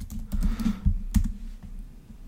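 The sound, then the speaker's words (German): Fingers type a search term on a computer keyboard, producing irregular clusters of soft key clicks with a few sharper taps standing out. No one talks. “ich tippe einfach Jugendsünde ein”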